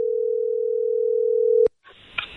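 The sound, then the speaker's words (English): Telephone dial tone as a radio host places a call, a steady single-pitched tone holding for about a second and a half before cutting off abruptly, followed by faint line noise and a small click. “So randomizer has picked a number. Let's make a phone call.”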